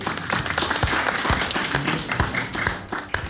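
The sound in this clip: Audience clapping, with many irregular, sharp hand claps overlapping at a steady, moderate loudness throughout.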